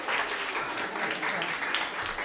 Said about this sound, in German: Ein großer Applaus für das Glöckchen.